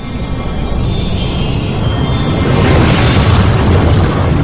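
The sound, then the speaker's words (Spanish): A catastrophic volcanic eruption at Mount Hekla roars as a loud, dense, continuous rumble that swells and grows harsher and brighter partway through. “En 1104, una explosión catastrófica en el monte Hekla arrojó cenizas hacia la atmósfera.”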